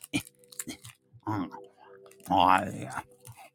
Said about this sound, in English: I'm going to eat a teeny tiny Twix at 3:53 in the morning because I am a professional.